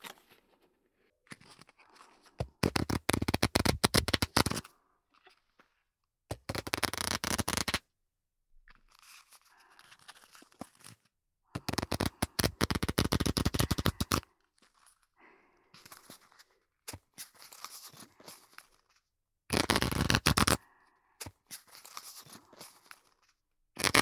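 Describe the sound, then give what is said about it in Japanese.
Playing cards are shuffled in a showy performance-style shuffle, several loud, dense riffling bursts separated by quieter stretches of lighter card handling, with no talk. “パフォーマンス性を重視なら、これは覚えていかなきゃいけないマストのシャッフルなんだよね。”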